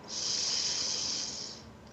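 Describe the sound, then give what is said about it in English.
A deep inhaled breath during a guided group meditation: a smooth, airy hiss that swells quickly, holds steady for about a second and a half, then tapers off. “I invite us all to join together as one conscious global heart as we take a deep breath in”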